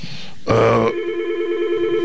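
A telephone ringing down a phone line: one short, bright, buzzing ring burst, then a steady droning tone that holds to the end, with no talk.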